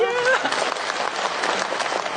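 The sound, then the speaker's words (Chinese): An audience at a stage show applauds a singer with dense, steady clapping throughout. A brief voice is heard at the very start. “给点掌声好吧”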